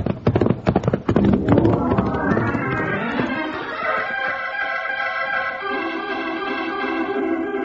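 Horse hooves clop in a rapid, rattling flurry as horses ride off, loud at first and thinning out after about three seconds as sustained music swells and carries on alone.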